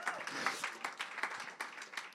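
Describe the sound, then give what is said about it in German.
Applause from a church audience during worship, a steady wash of many hands clapping that holds at a moderate, fairly faint level throughout. “darf ich gerne mal einen Applaus geben”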